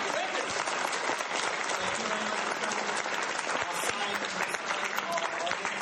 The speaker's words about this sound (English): So please put your hands together and thank the Marvel Audience.